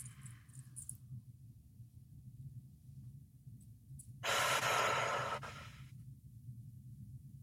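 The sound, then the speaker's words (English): One slow breath, drawn in through the nose and let out through the mouth during a guided relaxation. It is a soft, airy whoosh of about a second over a low, steady background hum. “we'll take just a few moments to breathe together, inhaling through the nose, exhaling through the mouth.”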